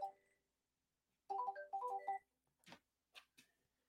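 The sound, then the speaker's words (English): A telephone rings with an incoming call, sounding as a short, quiet burst of bright electronic ringtone notes, followed by a few soft clicks and taps. “someone's calling me who doesn't know that I'm I'm on the air right now, so we'll just let that go to voicemail”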